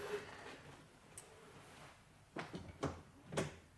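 A house's front door is opened, giving a few faint clicks and clunks of the latch and door that grow more distinct toward the end over a quiet background hiss.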